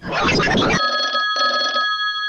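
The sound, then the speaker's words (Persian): A telephone ring sounds in a comedy skit of a mock phone call, right after a brief stretch of talking. It is a steady electronic tone with bright, high overtones, heard in two bursts separated by a short gap. “یه زنگ تلفن بده که بریم بازی کنیم”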